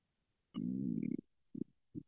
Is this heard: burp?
yes

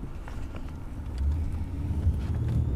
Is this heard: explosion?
no

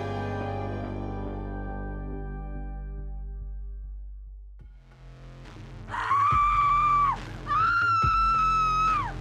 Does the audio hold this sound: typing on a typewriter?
no

